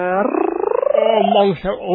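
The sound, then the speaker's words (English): A person imitates a cat's purr with a loud voiced rolling trill that pulses rapidly for about a second, then smooths into a sustained hum with a brief dip near the end. “And you do your purring thing.”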